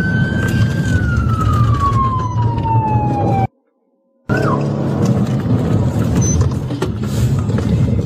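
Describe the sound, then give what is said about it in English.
A police siren wails as one police car chases another that was caught speeding on the street. The steady siren tone slides slowly downward over constant road noise, cuts out briefly, then returns. “So you can hear right now, one cop is actually chasing another cop that they saw speeding on the street.”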